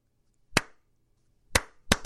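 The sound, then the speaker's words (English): Three sharp hand claps keep a beat, each a crisp, loud smack standing alone in silence, the second and third coming closer together than the first pair. “Because that's a jam. Because you can clap to it.”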